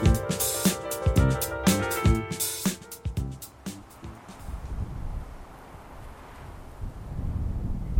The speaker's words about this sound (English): On a mountainside overlooking Ouray, the wind rustles through aspen leaves.